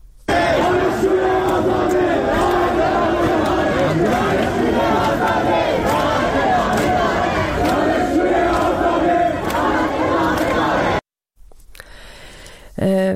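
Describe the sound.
Student protest gathering at Khajeh Nasir University, with a loud crowd chanting and shouting in unison, dense and sustained before cutting off abruptly near the end.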